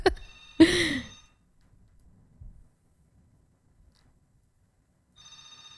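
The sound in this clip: A telephone rings for an incoming call. Two short, bright ringing bursts come at the start, then a long silence, then another ringing tone at the end. No voices are heard.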